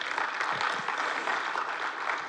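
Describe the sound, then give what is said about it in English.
Congregation clapping at a church service, a dense, steady wash of many hands applauding together for the whole stretch, loud and even with no pauses. “You can give the Lord a clap.”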